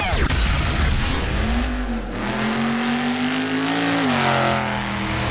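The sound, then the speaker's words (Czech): Formula 1 race cars at a race in Portugal roar with a loud, continuous engine note whose pitch holds steady, shifts slightly, then eases, heard alone throughout. “Zastavili jsme se podívat také na závod Formule 1 v Portugalsku.”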